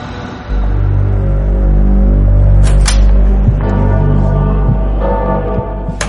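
A car engine accelerating, its loud, full rumble starting after a brief pause and holding steady with strong low harmonics, climbing in pitch a couple of times.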